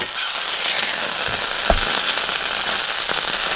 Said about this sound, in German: Na, habt ihr es erkannt? Ja, der Grill wird wieder angeschmissen.